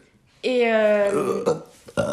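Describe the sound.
A long, loud, low-pitched burp with a rough voiced tone lasts about a second, followed by a couple of short vocal sounds.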